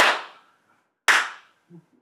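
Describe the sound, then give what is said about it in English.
Two sharp single hand claps about a second apart, each a loud crisp crack that rings out and dies away quickly, followed by a brief faint low sound near the end. “Oh, that was not a good clap.”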